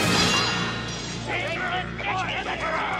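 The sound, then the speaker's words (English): Metal clash of two curved swords striking their blades together, a bright ringing clang at the start that slowly decays, followed by voices. “Two curved swords rest against it. The stone stands roughly level with the heads of the Skeksis. Deep notches mark the stone about halfway up. The Chamberlain and the Gotham Master each take a sword. They strike their blades together.”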